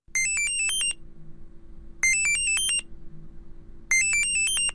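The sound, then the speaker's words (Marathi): A phone ringtone for an incoming video call plays in three short bursts of bright, high chiming notes, evenly spaced with quiet gaps and faint background noise. “अरे सुखदाचा video call. अरे घे ना.”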